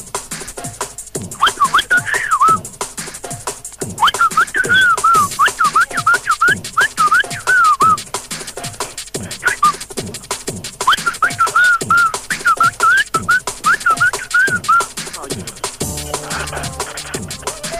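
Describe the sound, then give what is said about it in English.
Whistling that imitates DJ record scratching: rapid, chopped whistled phrases wobble up and down in pitch in quick stuttering bursts, with sharp percussive clicks running through them and a few short pauses. “And you can scratch with your whistle. Go on then, mate. Drop us a scratch.”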